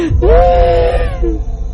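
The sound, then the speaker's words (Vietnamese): A woman wails and cries while kowtowing in a Vietnamese ghost-story audio drama, a loud, long-held sobbing cry followed by a shorter wavering wail over a low rumble. “Ngọc tiếp tục dập đầu than khóc”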